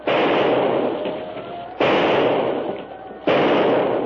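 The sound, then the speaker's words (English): Three loud gunshots fired at a crocodile swimming in a river, each a sharp blast followed by a long, rumbling decay, spaced more than a second apart. “Find your aim, Jeanette. You've missed the brute.”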